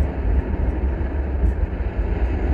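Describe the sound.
Rocket engines throttle up at launch on a Mars mission, a steady, heavy, low roaring rumble with no voices.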